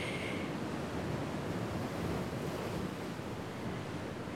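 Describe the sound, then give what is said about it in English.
Surf and open sea at the southern tip of the island at Southwell: a steady, rushing roar of waves with constant wind buffeting the microphone. “So I'm at Southwell, and as you can hear in the background, this most southern tip of the island.”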